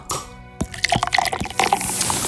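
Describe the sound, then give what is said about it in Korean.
Beer from a bottle overflowing as it is poured at a restaurant table: splashing and crackling fizz that builds into a steady, bright foaming hiss. “어, 넘친다 넘친다.”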